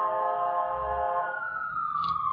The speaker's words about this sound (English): We'll wait for that siren to pass. Sorry about that.